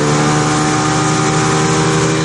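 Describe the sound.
A motorboat's engine drones loudly and continuously during a sightseeing trip by boat, a steady, unbroken hum with a strong buzzing tone and no voices.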